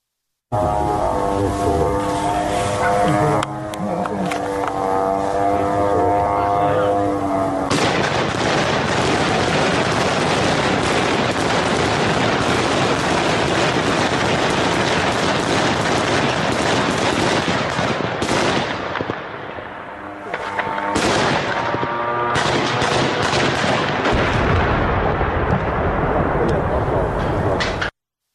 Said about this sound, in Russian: многие зафиксировали действительно работу беспилотников и работу ПВО по ним. Я предлагаю посмотреть, как это было, чтобы можно было услышать, что происходило на самом деле вчера вечером.